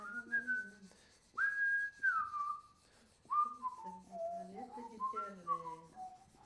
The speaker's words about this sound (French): Mais on peut toujours siffler un air.